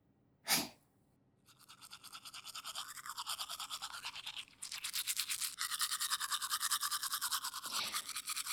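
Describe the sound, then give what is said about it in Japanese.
Teeth being brushed with a toothbrush, working on the other side of the mouth: fast, steady scrubbing strokes that continue without a break and grow somewhat louder partway through, after a brief sharp sound near the start. “よし、反対側磨くか。うん、こっちの方が磨きやすそうだな。”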